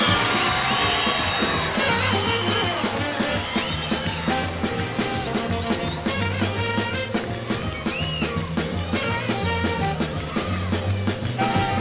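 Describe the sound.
Crowd cheering, whooping and yelling to welcome blues singer B.B. King at a soul music show, a dense, continuous roar with steady tonal sound running underneath.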